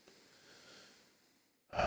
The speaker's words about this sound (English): Take a deep breath.